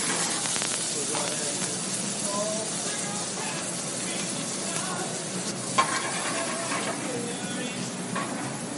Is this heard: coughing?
no